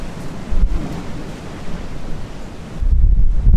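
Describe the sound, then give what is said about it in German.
Atlantic Ocean waves and strong wind on a ship's deck make a broad, steady roaring rush, with heavier low surges near the start and again at the end. “Aber das, du hörst jetzt, das ist der Atlantik.”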